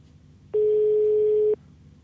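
A single telephone ringback tone sounds during an outgoing call. It is one steady, unbroken tone lasting about a second, alone and clear against a quiet line.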